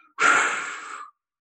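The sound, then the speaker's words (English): A deep breath is pushed out in a guided meditation breathing exercise: one long, breathy exhale of about a second, loud and alone, starting abruptly and then fading slightly before it stops. “And now we're going to push it out with our breath.”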